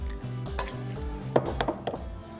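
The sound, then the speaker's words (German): A whole egg goes into semolina pasta dough in a bowl, with faint clinks and taps of utensil against bowl, several small knocks over a soft steady hum. “Dann mache ich ein ganzes Ei mit rein.”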